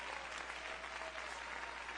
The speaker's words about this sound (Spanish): Dale un aplauso de alabanza al Señor.